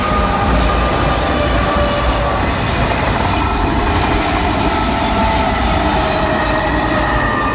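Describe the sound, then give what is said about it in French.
High-speed TGV trains passing along a canal make a loud, continuous rushing roar of rail traffic. It holds steady for the whole stretch, with a faint tonal hum and no voices. “C'est très reposant malgré le ballet des TGV.”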